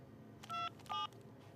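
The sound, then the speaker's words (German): Telephone keypad tones as a number is dialed: two short, clear electronic beeps in quick succession, quiet, over a low background hiss, with no talk. “Geh aus der Leitung, ich muss telefonieren.”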